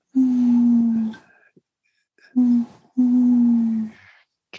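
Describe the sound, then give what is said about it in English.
Owl hooting: three low, steady hoots, the first and last about a second long and the middle one brief, with quiet gaps between them. No talk. “Can you hear the owl hooting as well?”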